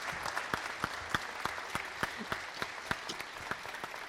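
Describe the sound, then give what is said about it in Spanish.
Audience applause at a school gala concert, a steady, even stream of many hand claps that carries through the whole moment without any talking. “les pedimos a los caballeros, les otorguemos un aplauso fuerte. Enorme a las damas.”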